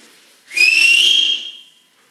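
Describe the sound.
A person whistles loudly: one shrill, sustained high note lasting about a second, steady in pitch and clear against near silence.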